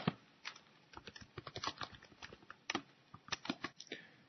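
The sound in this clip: Typing a message on a computer keyboard, many quick, quiet key clicks in irregular bursts, with no talk.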